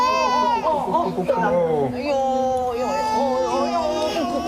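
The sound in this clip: A baby cries steadily while being held by its grandmother, a high, wavering wail that rises and falls across the whole stretch without pause.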